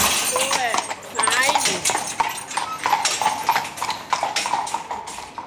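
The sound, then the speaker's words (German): Hooves of horses pulling a carriage filled with compost, heading back to the stable, clip-clopping in a steady rhythm of many beats at moderate loudness. “Unterdessen ist die Kutsche gut gefüllt und die Rosse kommen langsam Hunger über. Die Komposttour ist fertig, jetzt geht es zurück in den Stall.”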